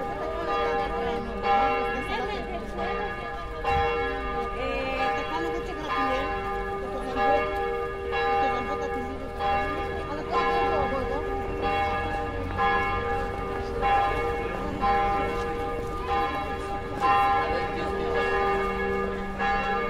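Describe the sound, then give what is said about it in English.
Church bells ring over a market, their sustained, bright tones and layered overtones holding steady for the whole stretch with little change in loudness. “church bells are reduced to a tiny ting because we are only hearing its harmonics in resonance. Whilst under 20,000 hertz, they fill up the sound space of the market.”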